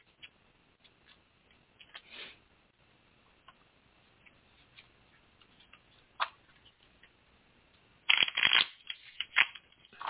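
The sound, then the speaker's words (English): A deck of cards is handled and shuffled: faint scattered ticks and soft rustles, then a louder, rapid riffling flurry near the end. No one speaks. “All right, I'm going to shuffle the cards.”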